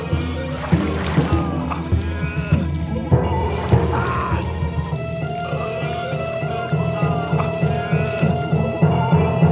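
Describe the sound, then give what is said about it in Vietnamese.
Boiling oil pours from a pot into barrels, one after another, in a folk-tale sound effect: a continuous sloshing, gurgling flow with small splashy accents throughout. “Bà liền vào ngay trong nhà bếp và nấu sôi dầu lên. Sau đó bà quay lại và đổ dầu lên từng thùng một.”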